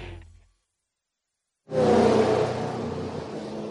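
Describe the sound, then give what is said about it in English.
Engine roar from GTP prototype race cars, including a Cadillac and a Porsche, coming down into their pit stalls during an IMSA endurance race. After a silent gap, a loud engine roar swells in suddenly and holds steady. “Coming down to their pit stalls, Whelan Cadillac leads the Meyer Shank number 60, the Porsche Penske number 6, and the Wayne Taylor Dex Imaging number 40 directly in front of me.”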